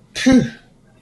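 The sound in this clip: A voice imitates a small, squeaky sneeze: a single brief, breathy burst with a thin nasal squeak, over in less than half a second.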